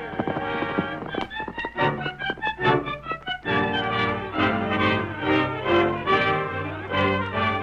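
A horse gallops away, its hooves striking in a rapid, fairly loud run of clip-clop beats that continues without pause.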